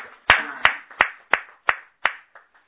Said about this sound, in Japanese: 盛大な拍手でお祝いをしてあげて